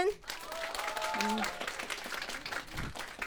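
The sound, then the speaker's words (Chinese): Warm audience applause welcoming a guest on a variety show stage, a steady faint patter of clapping with a voice briefly over it. “让我们用热烈的掌声欢迎忙着剪纪录片的呼兰”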